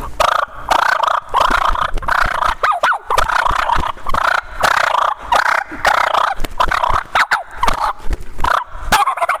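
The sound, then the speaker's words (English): Turkey call sounding a half gobble to stage a fight between birds: rapid, raspy, rhythmic bursts in a steady run, loud and without voices. “maybe throw a little half gobble like that in there and stage a fight.”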